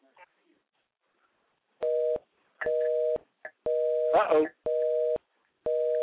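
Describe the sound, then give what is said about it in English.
A telephone tone sounds during a call that nobody answers: several short, steady electronic beeps with brief gaps between them, and a voice briefly overlaps one beep. “number's dialing, but nobody's answering.”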